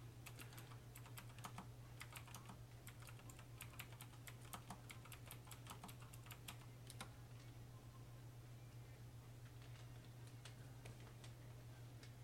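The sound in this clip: Rapid typing on a computer keyboard: dense bursts of sharp keystroke clicks over a steady low hum, thinning to sparse taps in the second half.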